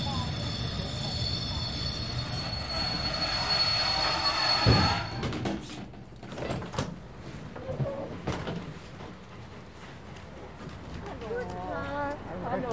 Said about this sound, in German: Sehr geehrte Fahrgäste, wir erreichen jetzt Chemnitz Hauptbahnhof. Dieser Zug endet dort.